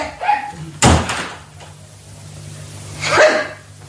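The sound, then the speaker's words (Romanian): A house door being opened and shut: a sharp, loud thump near the start, then a second, rougher burst of noise later, over a steady low hum. “Tăcere, să se deschide ușa.”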